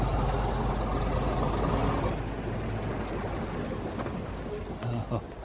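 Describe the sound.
A taxi's engine idles with a loud, continuous low rumble that stays steady throughout.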